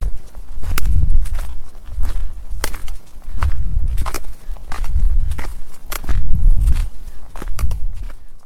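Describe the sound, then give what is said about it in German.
Footsteps walking downhill on a mountain pass, a steady, even rhythm of many crunching steps with soft low thuds, fairly loud and heard alone without talk. “Jetzt laufe ich bergab zu der Teufelsbrücke, die über das Ziel führt.”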